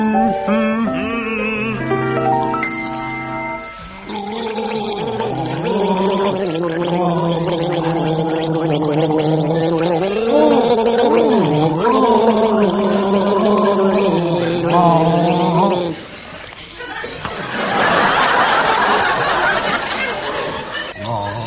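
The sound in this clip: Two people gargling a song with water, a sustained bubbling, wavering tune carried by the throat, loud and continuous, giving way near the end to a noisier burst of gurgling.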